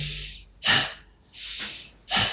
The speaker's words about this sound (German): Und wenn ich ausatme durch die Nase, geht der Bauch rein und das Einatmen geschieht von alleine.